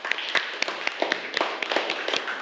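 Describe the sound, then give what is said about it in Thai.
Students in a classroom lesson clap for themselves. The claps are scattered, irregular and sharp, fairly faint, and run unevenly throughout. “ปรบมือให้ตัวเองหน่อยครับ”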